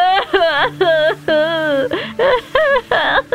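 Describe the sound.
A woman crying in a series of wavering, high-pitched wailing sobs that break into short voiced bursts, heard over a low, steady tonal hum.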